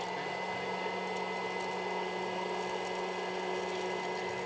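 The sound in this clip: Hot-air popcorn machine running before the kernels begin to pop, a steady whirring blower drone with constant humming tones and no popping, unchanging in level throughout.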